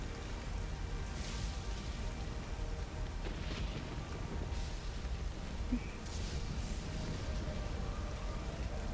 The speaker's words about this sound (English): If a clap of thunder goes on overhead, rain seems to be still coming down. Doesn't seem to be easing up.